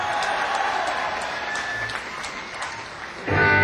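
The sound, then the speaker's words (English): Audience applause at a live concert, a dense, steady wash of clapping that swells louder in the final moments. “So give yourselves a big round of applause. I said a big round of applause for y'all.”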